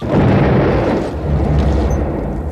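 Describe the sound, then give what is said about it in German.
An explosion aboard a brig, a loud, deep, dull roar that fills the whole stretch as a steady rumbling wash without pause. “Der scharfe, dumpfe Knall der Explosion hinter uns schreckte uns alle auf.”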